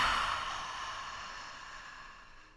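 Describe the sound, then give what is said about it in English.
A single slow, soft exhale during a guided mindfulness breathing exercise. The airy, breathy hiss starts moderately and fades away over a couple of seconds, with no voices. “Inhaling. And exhaling.”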